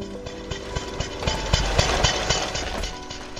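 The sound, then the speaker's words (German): A four-stroke combustion engine runs steadily in a three-wheeled motor vehicle with clutch, carburetor, gearshift and electric ignition, in Mannheim. It chugs with regular low thumps over a rough mechanical clatter, fairly loud and alone. “Ein Mann in Mannheim hat einen Viertakt-Verbrennungsmotor angeworfen, eingebaut in ein dreirädriges Fahrzeug mit Kupplung, Vergaser, Gangschaltung und elektrischer Zündung.”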